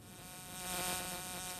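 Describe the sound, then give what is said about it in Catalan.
A housefly buzzes in a steady, droning hum. The whine swells toward the middle and then holds at an even level with no other sounds. “És que m'ha semblat sentir una mosca.”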